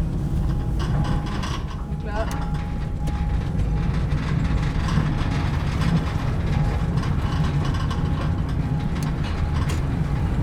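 Locomotive climbing a grade in a salt mine while sand is fed onto the rails for grip: a continuous mechanical rumble with grinding, rattling and clicking, steady in loudness, with a faint tonal whine that comes and goes.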